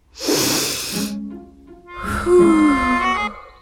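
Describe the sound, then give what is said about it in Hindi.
A long, deep calming breath: a noisy, airy inhale followed, after a short pause, by a longer voiced, sighing exhale. “चलो एक बार मेरे साथ लंबी सांस लो, ऐसे।”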